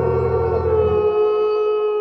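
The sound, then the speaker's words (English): A wolf howls on a mountain peak at night under a full moon: one loud, sustained tone of steady pitch with rich overtones, over a low rumble that fades out halfway through. “Then he tilted back his head to look at the full moon, closed his eyes, and howled.”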